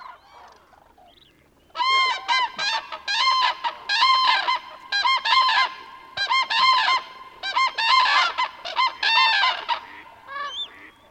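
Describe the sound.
A flock of cranes, adults with a few chicks, calls in loud, overlapping bugling honks. Faint calls come first, then a sudden rhythmic chorus of repeated trumpeting bursts that continues throughout.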